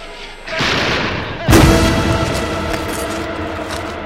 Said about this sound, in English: The police are firing more and more tear gas grenades.